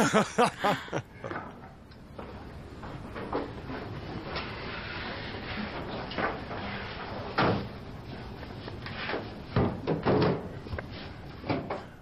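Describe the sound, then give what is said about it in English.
A cabinet door under a sink, in bad shape with a rusty hinge, is handled. A few loud knocks and clatters open and close the sequence, with quieter rattling and bumps between them. “Take a look at the cabinet under the sink as well for me, would you? It's really in bad shape.”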